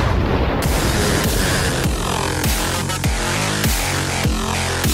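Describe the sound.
A bomb explosion sound effect: a loud, dense barrage of deep booms pulsing regularly over a constant roar, many hits in quick succession with no voices.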